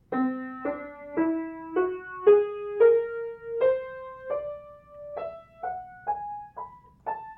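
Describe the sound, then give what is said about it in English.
A whole tone scale played note by note on a pitched instrument, climbing steadily in pitch. The notes are evenly paced and each one is struck clearly and then rings and decays. No talk. “And the same thing happens with the whole tone scale. It sounds like this.”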